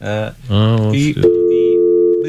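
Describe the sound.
A telephone call is placed to a clothing store: a voice sounds briefly, then a steady, continuous electronic line tone holds loudly to the end.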